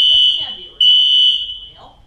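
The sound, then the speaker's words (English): A fire alarm sounds inside a building as a loud, piercing, high steady tone that breaks briefly and then resumes, with people talking faintly beneath it. “Yeah, that's the fire alarm. Is that real? That's real.”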